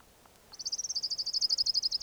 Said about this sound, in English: Orange ground warbler number one.